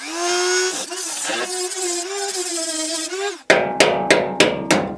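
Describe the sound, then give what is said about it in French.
A power tool whines steadily as it cuts through a rivet holding a car window, giving a high-pitched tone with rich overtones. It then stops and gives way to five sharp, evenly spaced metallic knocks. “il reste encore une partie du rivet qui bloque quand je bouge la vitre. Ça bouge ici, donc je vais continuer de couper.”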